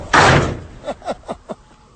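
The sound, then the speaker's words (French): Knocking on a door at a shanty settlement among greenhouses: one loud opening bang, then four quick, evenly spaced knocks. “Tu vas taper aux portes n'importe où?”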